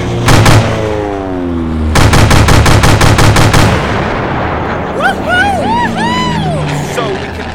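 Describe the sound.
Rapid gunfire rattles during an aerial chase: a short burst, then a longer run of quick shots over a steady engine drone. Warbling, whistling tones rise and fall near the end.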